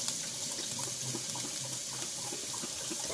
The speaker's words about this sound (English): Just rinsing these great northern beans.